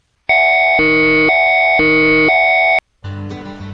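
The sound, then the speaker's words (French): Warning tone of a national public alert system: a loud, steady electronic signal alternating between two pitch chords about every half second, five segments in all, then abruptly cut off. “Ce qui suit est un message du Système national d'alerte au public.”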